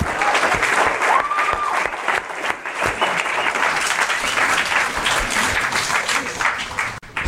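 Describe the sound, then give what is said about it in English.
An audience applauds a congratulated guest with dense, steady clapping that lasts about seven seconds, dipping briefly right at the end. “Give him a big round.”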